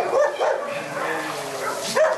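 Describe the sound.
Dogs bark at the Illatos út dog shelter on a hot day when the kennels are hosed down, a cluster of overlapping, fairly loud barks and yips with the sharpest bursts at the start and end.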